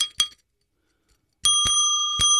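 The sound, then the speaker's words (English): A small bright bell with a bicycle-bell ring, rung to open a session: two quick dings, a pause of silence, then sustained ringing with a few more struck dings layered over it. “By the way, that's your bell that you have now. We are now in session. Why is that bell in here anyway?”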